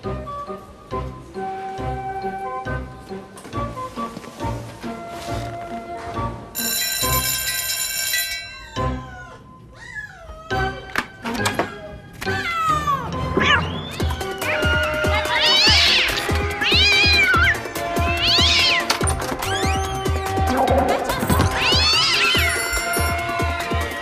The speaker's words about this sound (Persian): این پیشی گربه همسایه‌مونه